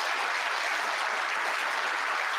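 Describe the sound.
Audience at a political town hall cheering and applauding: a dense, unbroken roar of claps and voices that holds at an even, loud level.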